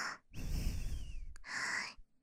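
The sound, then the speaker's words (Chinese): Heavy breathing from someone being hugged too tightly: a few long, breathy, gasping inhales and exhales in quick succession, fairly loud, with no talking. “你抱我抱得太紧了，我喘气有点累。”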